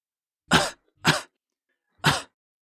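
Someone with a cold coughs three times, each a short, dry, harsh burst, alone with silence between them.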